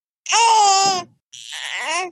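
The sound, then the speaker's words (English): A baby girl fusses in two short, high-pitched whiny vocal bursts separated by a brief pause, the first slightly longer and louder than the second. “Sweet baby. Yeah, she's fussing a little bit.”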